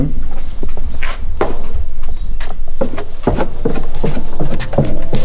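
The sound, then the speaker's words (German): Footsteps go down stairs in a cow barn. Many loud, uneven steps and knocks sound over a heavy, constant rumble. “Wir gehen die Stufen wieder runter”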